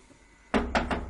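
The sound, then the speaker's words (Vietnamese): Three rapid, loud knocks strike a door in quick succession after a quiet moment, each a sharp, hollow thud. “Tiếng gõ cửa dồn dập vang lên.”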